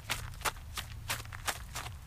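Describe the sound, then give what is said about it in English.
Running footsteps as a radio-drama sound effect, a man dashing off toward an alley: a quick, even series of firm footfalls over a low steady hum. “he set off for the alley on a run. I dashed back through Ledwich's flat to the kitchen and stuck my head out of an already open window.”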